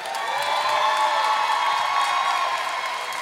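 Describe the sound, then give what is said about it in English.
A crowd in Jackson, Mississippi cheers and applauds as guests are welcomed onto a stage, making a continuous, even roar of clapping and shouts that holds at a steady level. “Please make a lot of noise. Give these guys a Jackson, Mississippi-sized welcome.”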